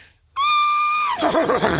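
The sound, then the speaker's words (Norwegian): A person imitates a horse's neigh with one loud, high voiced tone held steady before it breaks into a wavering, quavering whinny, heard alone. “Kan du høres ut som en hest? Nei Prøv da Jeg har ikke gjort det før Skal jeg prøve?”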